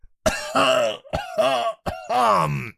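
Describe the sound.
A theatrical, drawn-out throat-clearing cough with a dramatic edge, made of a few strained, voiced bursts that rasp and groan, each held briefly with short gaps between.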